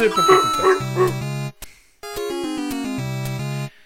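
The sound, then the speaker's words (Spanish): The 8-bit dog sound from the NES game Duck Hunt, made of bright square-wave chiptune notes: a bouncing, yipping pattern settles into a held low tone, then after a short gap a stepped descending run of beeps ends on another sustained low note. “Cómo suena ese sonido de la nostalgia de Nintendo Entertainment System. Duck Hunt, que era lo que el venía. Perrito café que le cazáis los patos y los recogíais.”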